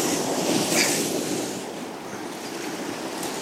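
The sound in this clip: Rushing river rapids as a boat is paddled through them: a steady, broad roar of churning water with no distinct paddle strokes, swelling slightly early on and then easing.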